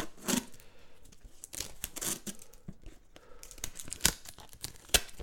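Packaging ripped and crinkled as an unexpected parcel is opened in a hurry, a run of sharp, irregular tearing and rustling bursts, with a few louder rips near the end.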